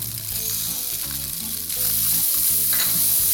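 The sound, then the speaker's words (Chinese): Green peppers stir-fried over high heat make a loud, continuous sizzle with scraping stirring noises, and the frying grows louder partway through. “这时候我们要炒青椒。 好的， 下青椒，一样都大火哦。”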